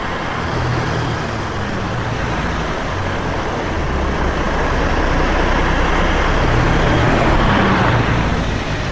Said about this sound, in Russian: По лесной дороге едет автомобиль Олега.